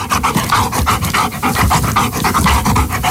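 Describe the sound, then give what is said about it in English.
A dog pants hard and steadily, with many quick, rhythmic breaths that run loud and unbroken throughout, no voices over them. “I think the answer is a dog panting”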